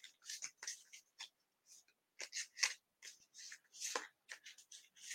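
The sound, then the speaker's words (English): A card is drawn from a deck during a card reading, heard as many faint, brief papery rustles and soft flicks scattered in quick bursts with quiet gaps between them. “Okay, so here I'm going to pull another card.”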